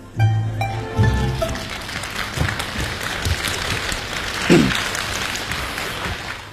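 Audience applause at a xiangsheng crosstalk comedy show, a dense, steady wash of many hands clapping that holds for the whole stretch at a fairly even loudness.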